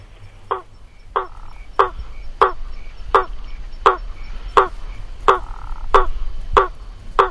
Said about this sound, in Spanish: Que se llama rana martillo, Ipsiboa faber. Y el canto que produce es como el golpe de un martillo.